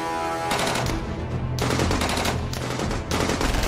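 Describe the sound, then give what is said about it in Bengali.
Musket gunfire from musketeers hidden among trees in a quiet garden: a loud, continuous volley of many rapid, overlapping shots crackling without pause. “গাছের আড়ালে তিন জায়গা থেকে লুকিয়ে বন্দুক ছুঁড়ছেন মাস্কেটিয়াররা।”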